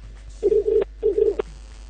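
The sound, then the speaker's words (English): A telephone ringing on an outgoing call to a prize winner: two short, low buzzing ring tones in a steady, repeating pattern, with no voices. “if you know your phone is ringing, pick it up.”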